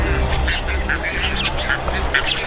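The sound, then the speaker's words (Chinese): Nestling birds squabble over food brought by their parents, a dense run of short, high chattering and squealing calls overlapping one another without pause, fairly loud throughout over a low background rumble. “彩环雏鸟内斗不断，尤其是在父母带着食物回来的时候更为严重。”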